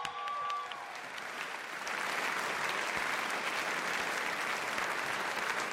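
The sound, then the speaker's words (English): An audience claps: dense, continuous applause, a little softer at first, then fuller and steady from about two seconds to the end. “I don't even know if the applause is playing, but y'all guys are clapping.”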